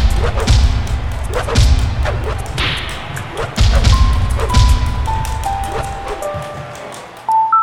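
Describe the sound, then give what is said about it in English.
Swing whooshes from a Wii Remote and nunchuck in a video game: many sharp, swishing swipes with thuds, followed by a short run of electronic tones. “So I'm pressing my X that swings my Wii Remote, and then Y simulates a nunchuck swing. If I put them together, I can play the game.”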